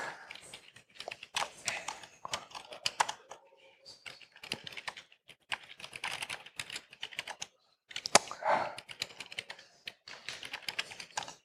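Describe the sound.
A password is typed on a computer keyboard in quick bursts of clicking keystrokes, separated by short pauses and one longer silent break.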